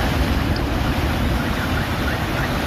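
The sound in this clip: Giant storm waves pound a Turkish seashore after heavy rain and gales, producing a loud, unbroken roar of surf with wind buffeting throughout and no distinct breaks between swells.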